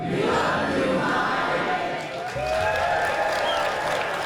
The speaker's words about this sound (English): And the Telluride audience were prompted to let Mike Leigh know just how much they appreciated him.